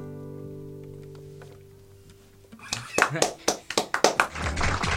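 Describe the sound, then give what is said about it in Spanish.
Light applause from two people clapping, a quick uneven run of many sharp claps that follows a quieter opening with a sustained tone. “ahí vino el aplauso masivo. Exactamente, porque somos dos, tampoco que podemos aplaudir tremendamente fuerte.”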